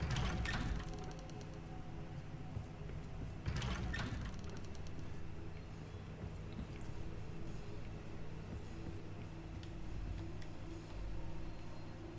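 A door-opening mechanism in a video game grinds and rumbles continuously, with steady low mechanical hums underneath. Louder scraping bursts come at the start and again a few seconds in, and no one speaks.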